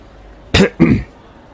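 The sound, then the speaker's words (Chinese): A light cough from a person smiling warmly, made as two short throaty bursts in quick succession, fairly loud against a quiet background. “汪福渠看在眼里，脸上露出温馨的笑容，略微咳嗽了一声”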